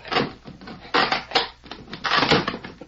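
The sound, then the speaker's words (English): Wood being pried open on a box, with crunching, splintering creaks in several rough bursts of varying loudness. “Ah, here it is. I'll pry the box open.”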